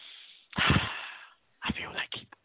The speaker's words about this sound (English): Okay, let me take a breath.